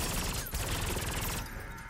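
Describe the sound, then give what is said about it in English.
Rapid automatic gunfire comes from the Deep Rising gun in a scene of the film Jason X. It is a dense, continuous burst of shots without pauses, loud and harsh, with the bright crackle thinning just before it stops. “Holy shit, Frank, you know what that gun is? You know what that gun that guy has? Oh, is it the same fucking gun? Wait, don't tell me. It's the same, it's the Deep Rising gun.”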